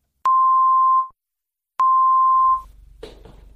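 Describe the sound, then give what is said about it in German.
Two identical steady mid-pitched beep tones for a headphone left-right check, the first meant for the left ear and the second for the right. Each lasts just under a second, a short silence separates them, and faint low noise follows. “Um sicherzugehen, dass Sie Ihren Kopfhörer richtig herum aufhaben, werden vor dem Hörspiel zwei kurze Signaltöne erklingen. Der erste Ton links, der zweite rechts.”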